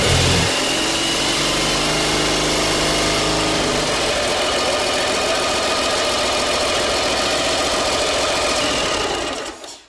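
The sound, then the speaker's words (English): A freshly assembled motor runs: a loud, continuous mechanical drone with dense rattling and a low throb in the first second. It holds steady for several seconds and fades at the very end. “And he put that motor together in about an hour and had it running.”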